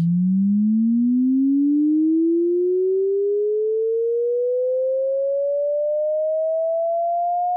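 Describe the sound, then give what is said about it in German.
An electronically produced tone built to sound deliberately annoying: one pure, loud whistle that glides steadily upward in pitch from a low hum to a piercing tone, holding an even volume, with nothing else audible. “Ein Ton gemacht und komponiert nur, um besonders fies zu klingen. Das ist elektronisch produziert”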